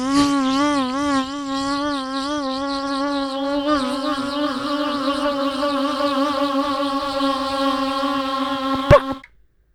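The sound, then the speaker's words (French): A kazoo buzzes in imitation of a fly, a continuous nasal drone whose pitch wavers at first and then steadies. It is sustained for about nine seconds and stops with a brief pop. “Mais, tu sais, de deux gazous, deux musiques à mouche, parce que la musique à mouche, c'est beau, hein? Ça fait...”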